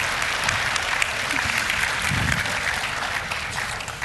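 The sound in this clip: Audience applause welcomes a guest onto a stage during a talk on the parable of the Good Samaritan. Dense, steady clapping fills the whole stretch at an even, fairly loud level.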